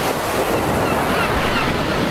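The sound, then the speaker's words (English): Waves breaking on a beach make a continuous, loud, hissing roar of surf, mixed with wind buffeting, steady throughout with no clear separate wave crashes. “La Playa sounds like this.”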